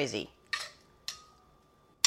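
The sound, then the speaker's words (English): A few sharp metallic clinks of a spoon against a pot, each leaving a faint ringing tone, while liquid is spooned off beans for a one-pot lentil, black bean and rice dish. “So yeah, sort of siphoning off the liquid. It would be easier to probably put this in the colander, but my colander has got beans in it. So I'm just one spoon at a time trying to get the liquid off.”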